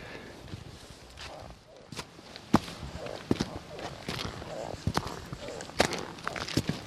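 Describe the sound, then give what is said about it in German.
Footsteps on a mountain hiking trail above the Kandersteg valley floor: uneven, scuffing steps with a few sharper crunches, fairly quiet against a rustling background. “Jetzt gehe ich um eine Ecke auf dem Wanderweg wieder.”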